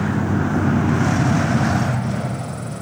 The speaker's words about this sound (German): Der Bus fährt gleich.